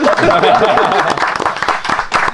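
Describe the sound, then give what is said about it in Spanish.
Audience applause, a dense burst of many hands clapping, loud and continuous at first, then thinning into scattered claps with cheering voices mixed in. “¡Un aplauso para Fermín!”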